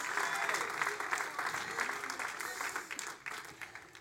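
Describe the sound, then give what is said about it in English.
Audience applause, a steady wash of many hands clapping with some voices mixed in, fairly even in loudness and tapering slightly at the end. “Oh, come on, somebody make some noise. Put your hands together.”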